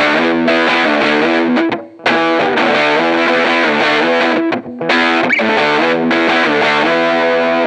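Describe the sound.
Heavily distorted electric guitar played through an RKS effects pedal into a cranked tube amp with the tone knob turned fully clockwise: bright, buzzing sustained chords that ring on, cut by two brief gaps.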